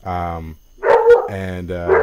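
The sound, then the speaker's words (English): A pet dog barks a few times in short, loud bursts, with a voice also present. “Hey, I heard a spider. Yeah. No, that's my dog.”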